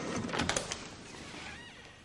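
A door handle being turned and a door opening at the end of a long corridor: a few sharp clicks and knocks in the first second, then a softer sustained hiss that slowly fades.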